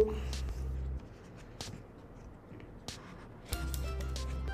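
Packaging of an Apple MagSafe battery pack is opened, producing a few brief crinkling and scraping bursts of paper and plastic against a quiet background with intermittent low tones.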